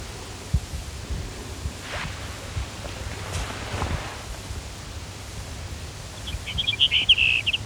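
A Brewer's sparrow sings one short, high, buzzy trill of rapid notes near the end. The song is clear and fairly loud against a steady hiss of background noise.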